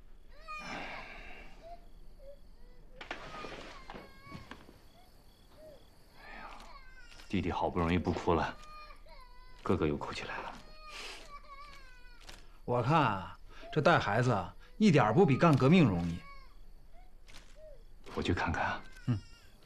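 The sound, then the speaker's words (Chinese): Babies crying: two young brothers wail in bursts, with several rising and falling harmonic cries separated by quieter pauses, growing louder in the later part. “弟弟好不容易不哭了，哥哥又哭起来了。”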